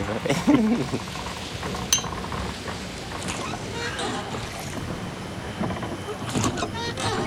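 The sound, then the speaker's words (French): A canoe moves away across water, with soft sloshing and splashing of the hull and paddles, while people talk over the gentle water sounds. “Regarde, le canot là, le canot, il s'en va.”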